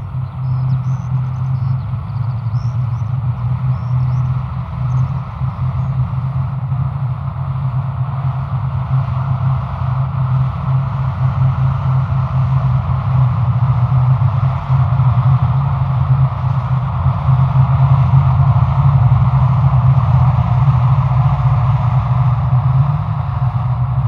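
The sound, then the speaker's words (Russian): Tanks rolling along a road across a fog-covered field: a loud, continuous low engine rumble with a steady grinding drone that holds level throughout, with no talk. “По пересекающей поле дороги едут танки.”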